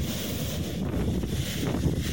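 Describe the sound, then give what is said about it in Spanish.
Strong wind blowing along a rocky coastal shore at Lota, Chile, where the surf is heavy. A loud, steady roar of buffeting wind mixes with a continuous low rush of waves, with no pause throughout. “Bastante viento.”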